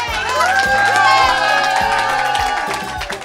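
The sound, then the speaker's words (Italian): Audience applauding and cheering for a DJ, loud whoops and shouting voices, some of them children's, ring out over claps, swelling briefly and then easing off. “Facciamo un applauso a questo bravissimo”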